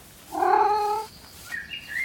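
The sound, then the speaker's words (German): A tomcat meows while prowling a garden hunting mice. One long, loud, harmonic cry is followed by a few fainter, higher, short chirping calls. “Mio, der Kater meiner Nachbarin auf Mäusesuche”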